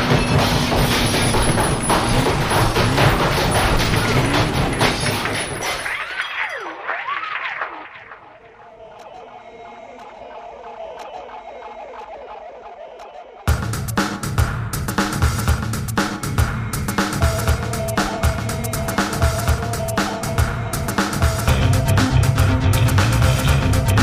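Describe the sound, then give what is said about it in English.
A rock crusher crushes a computer with loud, dense grinding and crunching. The noise thins to a quieter mechanical rumble partway through, then surges back to full, harsh force. “Well, let's get the rock crusher and put it to the test.”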